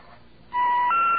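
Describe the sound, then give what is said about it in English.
Telephone keypad dialing tones at an automated call prompt: after a low hiss, a loud, steady electronic tone begins and shifts straight into a second pitch, two key presses heard back to back. “Please enter the number you are calling.”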